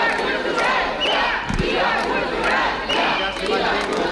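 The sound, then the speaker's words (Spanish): Loud shouting and cheering from a crowd at a street protest by contemporary art gallery owners in Madrid, a dense, continuous roar of many voices with a few sharper bursts. “Os traigo el sonido de una manifestación.”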